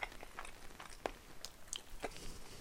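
Faint crunching as someone chews garlic toast, a few soft irregular bites and crunches with no talk.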